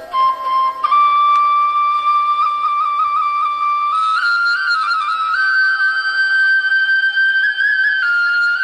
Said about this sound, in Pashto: خو د دغه رمې شپونکي بیا دلته یوې لویې تیږې ته ډډه لګولې او شپېلۍ ږغوي.